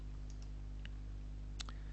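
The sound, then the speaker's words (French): Faint computer mouse clicks as a slideshow button is pressed in photo album software. A few light, sharp ticks sit over a constant low electrical hum. “Et je vais cliquer sur le bouton diaporama.”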